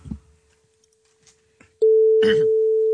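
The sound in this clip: A steady telephone tone follows an unanswered call that hangs up. It starts abruptly after faint scattered sounds and holds loud and continuous to the end, with a brief voice-like burst over it.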